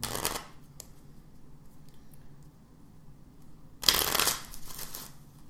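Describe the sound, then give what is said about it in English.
Playing cards shuffled for a game of cribbage: two brief, crisp riffling bursts, one at the start and a louder one near the end, with quiet between them. “You know what that sound is? That is the sound of cards being shuffled.”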